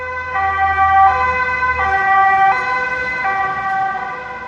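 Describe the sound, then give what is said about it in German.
A German two-tone emergency vehicle siren horn alternates steadily between a higher and a lower note, loud and continuous, with a low rumble beneath the first half. “Das Einsatzhorn der Einsatzwagen wird auch Folgetonhorn genannt, weil es aus zwei verschiedenen Tönen besteht, die aufeinander folgen.”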